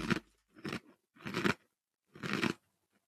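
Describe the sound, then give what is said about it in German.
Crisp crunching as a cookie is eaten, four distinct dry bites or chews separated by short pauses, with no talking. “Und der Keks ist allerdings gut. Ja, der schmeckt wirklich lecker.”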